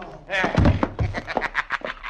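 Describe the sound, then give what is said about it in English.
Two dull, heavy punch thumps, sound effects in a radio drama fight, landing close together among short bursts of voices. “And now two times in the jaw. There is one, and there is the other.”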